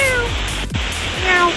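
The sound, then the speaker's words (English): Pilots imitate cats over an airport radio frequency, letting out a few short, falling meows against a constant hiss of radio static. “Now, would you think that's a dog or a cat or just someone messing around, right? Well, this actually happened. Pilots were meowing and barking on airport frequency”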